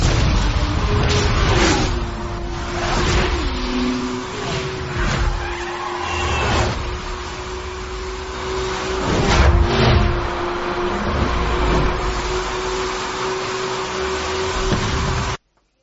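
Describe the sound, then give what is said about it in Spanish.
A Porsche 911 sports car engine holds a loud, steady drone with skidding, tire-squealing surges and several whooshing bursts, then cuts off abruptly. “Y hablamos del 911, el Porsche, que cumple 50 añitos en este año 2013.”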